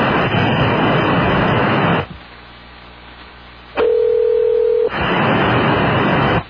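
A single steady telephone tone sounds for about a second between long bursts of loud, harsh line hiss that stop and start abruptly.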